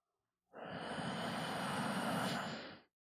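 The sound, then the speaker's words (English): A single slow, deep inhale during a guided breathing exercise: a soft, airy breath that swells in, holds steady for about two seconds, then tapers off, heard alone. “let's take a nice deep inhale.”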